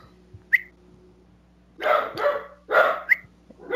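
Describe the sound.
A dog barks at a sprite while backing up, letting out a few loud, rough barks in quick bursts after a brief high yip, over a steady low hum.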